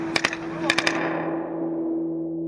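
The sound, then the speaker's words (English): Gunfire in a war zone: two short bursts of sharp, loud cracks, like rat-a-tat machine gun fire, then a steady low hum that continues alone to the end. “you can hear the volleys going overhead, the occasional mortar rounds, and, you know, the rat-a-tat of machine gun fire.”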